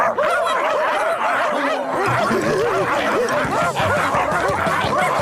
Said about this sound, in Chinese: 你是超级坏狗狗，超级坏狗狗，超级超级坏狗狗。